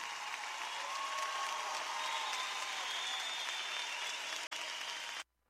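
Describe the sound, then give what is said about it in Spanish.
Crowd applause, a faint, steady and even rush of many hands clapping that runs on unbroken, dips for an instant near the end, then cuts off abruptly. “Ese aplauso tú sabes para quién es, por favor.”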